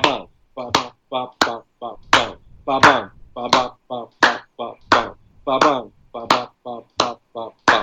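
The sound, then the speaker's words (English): A voice imitates the samba agogo bell pattern with quick syllables and sharp tongue clicks, making many short mid-high bursts in a repeating, bouncy rhythm. “Agogo is like a mid, kind of mid high. It sounds like this:”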